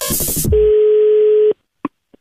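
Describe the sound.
A telephone line tone sounds as a call is placed: a noisy burst, then one steady, loud, mid-pitched tone holding for about a second, followed by two brief faint blips before silence.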